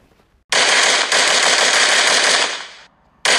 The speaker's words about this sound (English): As he leaves, he fires another round from his shotgun in the bathroom.